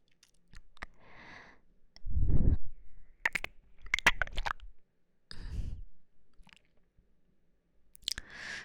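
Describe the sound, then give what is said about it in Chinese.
Crunchy chewing of popcorn, a few separate bursts of bites and sharp wet clicks with quiet pauses between them, heard alone without talk. “姐姐喂你吃一个爆米花好不好？”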